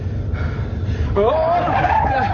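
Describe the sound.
A car speeds and skids along narrow country lanes: a steady low engine rumble, then a loud tire squeal that slides upward in pitch from about midway and holds to the end.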